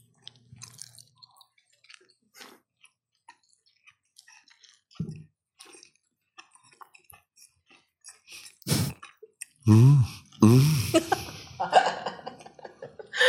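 Chewing of marinated galbi ribs with french fries: scattered soft wet clicks and smacks at first, then louder, denser crunchy bursts toward the end.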